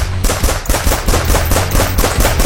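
Rapid automatic gunfire from firearms, a loud, dense string of shots that repeats quickly and steadily without pause.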